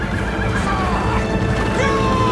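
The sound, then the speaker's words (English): Horses neigh and whinny amid the dense, continuous roar of samurai cavalry charging at full speed across a field. Sharp whinnies rise above a thick, unbroken rumble that runs throughout. “Comrades in arms lead a full-speed charge. Behind them, warriors point their blades forward. As the samurai horsemen sweep across the field, Bagley rides his mount”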